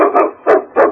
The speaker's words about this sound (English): Look at that animal. That's no wolf. That's a dog.